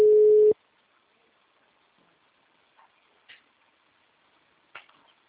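On an outgoing call, a single loud burst of telephone ring tone is followed by near silence with a few faint clicks.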